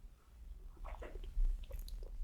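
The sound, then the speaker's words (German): A sip of espresso taken from a cup: a few faint, short slurping mouth sounds clustered near the middle, with nothing else heard and no talk. “Aber zunächst trinke ich einen Schluck Espresso.”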